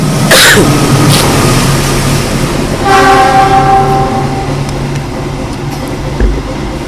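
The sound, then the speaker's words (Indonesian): A freight train rumbles past steadily, and midway a long, loud train horn blast sounds over the continuous rolling noise before fading back into the rumble. “Jadi kereta barang kalau ini nih, iya kan? Lebih panjang kereta barang biasanya.”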